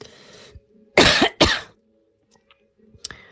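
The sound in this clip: Two harsh coughs from a tickle in the throat burst out loudly in quick succession, surrounded by fainter small throat and breathing sounds.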